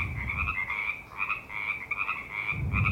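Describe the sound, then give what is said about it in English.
Frogs croak in a continuous chorus of rapid, rasping, fairly high-pitched pulses, with a rumbling low noise at the start and end. “where are the frogs? There they are.”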